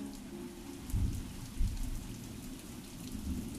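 Steady rain falling as a dense, even hiss, with a couple of soft low rumbling swells early on and no voices.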